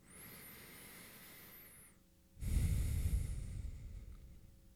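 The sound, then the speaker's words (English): A deep breath taken during guided meditation, one long airy rush of breath that begins abruptly and then slowly fades, preceded by a faint high whistling tone. “Inviting the eyes to close. Taking a nice deep breath.”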